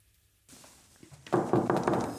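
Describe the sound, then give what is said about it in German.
A town treasurer knocks on the mayor's office door in Bad Karlshafen's town hall, a soft thud followed by a quick series of loud, sharp raps. “Wenn der Kämmerer klopft, wird es ernst im Büro vom Bürgermeister in Bad Karlshafen.”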